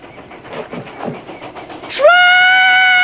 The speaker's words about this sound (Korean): 그때 설마 설마 했던 기차의 기적 소리가 들립니다.